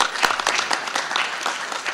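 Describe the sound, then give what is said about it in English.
Applause for a film commission's board chair at a civic honoring ceremony: loud, dense, steady clapping from a crowd that continues without a break. “Let's give Cindy a great big round of applause.”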